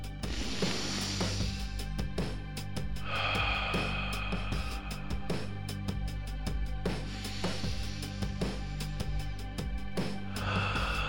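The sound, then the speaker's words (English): A group of people take three big, deep breaths in unison, each a breathy rush of air rising and fading, spaced several seconds apart over a low, steady tone. “Look each other in the eyes. And take three big breaths.”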